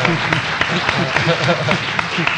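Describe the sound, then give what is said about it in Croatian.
Applause for a woman who has just sung rises as a dense, steady patter of clapping hands. It lasts a couple of seconds, with a voice faintly audible underneath. “Jedan aplauz za nju.”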